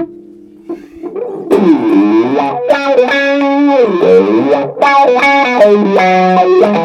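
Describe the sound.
Electric guitar riff through a three-mode effects pedal turned all the way up, starting softly then jumping to loud, bright, distorted chords with wavering, sweeping tones and a brief break before the riff repeats.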